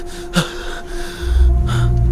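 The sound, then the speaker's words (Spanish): Sharp gasping breaths from a distressed person being coached to breathe and calm down, a few quick, harsh inhalations standing out alone over a low, steady rumble that swells in the second half. “Respira. Respira. Eso. Eso.”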